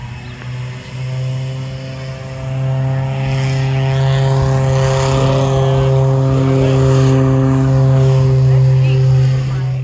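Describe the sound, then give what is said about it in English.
Airplane engine noise from a skydiving plane: a loud, steady droning hum with sustained tonal whine that swells slightly after the first couple of seconds and then holds constant. “And I don't think I want to jump from a plane, though. I love this noise.”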